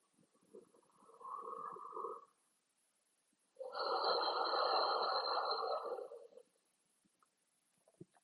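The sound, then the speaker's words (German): Deep breaths drawn in through the nose over hands holding peppermint oil, during a relaxation exercise: two soft, airy breaths, the first short and the second longer and fuller, separated by quiet pauses. “Und dann nimm deine Hände Richtung Nase und nimm 3 ganz tiefe Atemzüge.”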